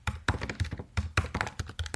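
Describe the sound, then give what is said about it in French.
Typing on a computer keyboard: a quick run of many light clicks and taps in an uneven rhythm, with no voices. “Je vais vous décaler un peu pour pas que vous entendiez trop euh, le moment où je tape.”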